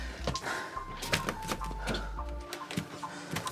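A locked door at a hunting cabin is tried, giving a few dull rattles and clunks of the handle and latch in quick succession over a low, steady hum.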